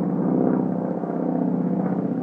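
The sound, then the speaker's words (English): A small plane flying low overhead near Niagara-on-the-Lake makes a steady, buzzing engine drone that holds an even loudness throughout without pause. “And there's a plane buzzing really low here, flying pretty low.”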